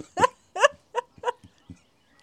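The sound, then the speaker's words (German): Duck quacking: a series of short, nasal, harmonic calls at fairly even intervals with quiet gaps between them, and a few fainter low soft sounds in the pauses. “Ah, da lacht sogar die Ente.”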